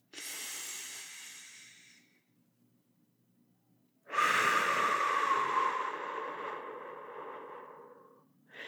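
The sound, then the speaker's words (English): Slow, deep breathing during a calming exercise of breathing in for six counts, holding for two and releasing for six: a soft, airy breath of about two seconds, a pause, then a longer, louder breathy stroke lasting about four seconds. “Breathe in for 6, hold for 2, and release for 6, okay?”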